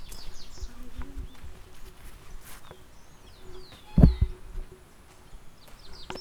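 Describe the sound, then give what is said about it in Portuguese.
Small birds chirping in a few faint, high, sweeping calls over a quiet steady outdoor background, with a dull thump partway through. “É ruído de passarinho aí!”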